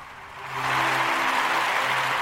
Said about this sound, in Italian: Anche il nostro pubblico applaude